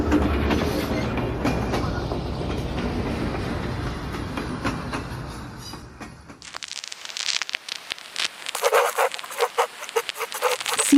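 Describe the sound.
A train rolling on rails: a dense, steady rumble that changes partway into sharper, uneven clicking and rattling, loud throughout.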